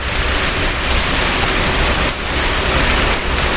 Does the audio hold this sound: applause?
no